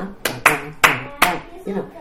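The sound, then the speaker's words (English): A few short, light hand claps close a therapy class routine. The claps come in an uneven rhythm, with a softer final one after a pause. “Well, I've made up this whole little routine to end with, or sometimes I use it right in the middle, just a little clap.”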